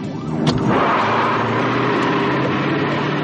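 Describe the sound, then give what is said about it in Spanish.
A car accelerates hard during a chase in a 1991 road-movie drama: after a short sharp knock, a loud, sustained engine roar holds steady and full to the end. “Acorralada, Luis acelera a fondo.”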